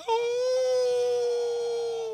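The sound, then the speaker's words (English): A human voice imitates a pack of wild dogs howling in the woods. It holds one sustained, steady 'oo' tone for about two seconds, then eases off slightly at the end. “when the pack of wild dogs would come out in the woods, and you'd hear,”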